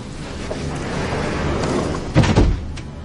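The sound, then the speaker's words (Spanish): A glass-walled office door swings shut with a brief, muffled thud and slight rattle near the end, set against a steady low background hiss. “Se mete en un despacho acristalado y cierra.”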